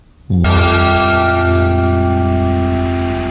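A single deep, hollow church bell stroke sounds the hour, striking suddenly and then ringing on loudly with a steady, sustained hum that fades only slightly.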